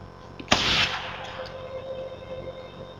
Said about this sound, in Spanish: El silenciador hace del disparo un susurro